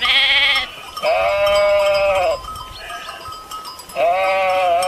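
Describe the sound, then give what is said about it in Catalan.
Sheep from a herd bleat in long, wavering, nasal calls. Three loud bleats are separated by quieter gaps with fainter background sounds from the flock. “O la meva padrina Aida amb el seu ramat.”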